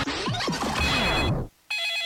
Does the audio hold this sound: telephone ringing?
yes